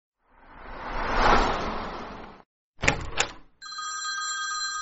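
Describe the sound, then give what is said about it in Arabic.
An apartment door opens at ten at night: a stretch of rushing noise, then a few sharp clunks and rattles, after which a telephone bell begins ringing steadily and insistently. “في ذلك اليوم فتحت باب شقتي في العاشرة مساء”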